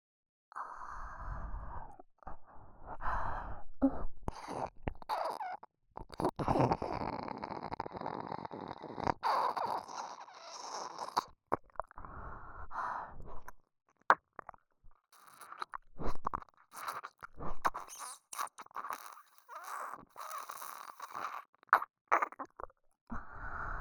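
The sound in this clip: Wet slurping and sucking mouth sounds on an ear come as many soft, irregular bursts separated by short pauses, with no talk.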